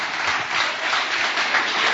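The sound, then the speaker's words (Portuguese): Congregation applause during a church service, a dense, continuous patter of many hands clapping at an even level for the whole short stretch. “Vamos receber o servo de Deus com palmas bem forte para Jesus.”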